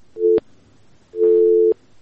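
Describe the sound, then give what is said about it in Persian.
Telephone busy signal after a caller's line drops: two steady mid-pitched tones, a short one followed by a longer one after a brief gap, loud and clean over faint background hiss. “تماس شما قطع شد.”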